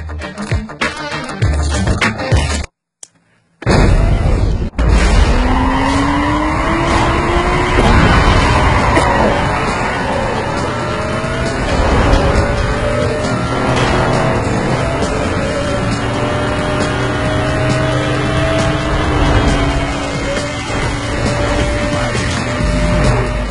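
Racing car engines rev continuously, their pitch sweeping up and down as they accelerate and pass, loud and sustained after a brief dropout near the start.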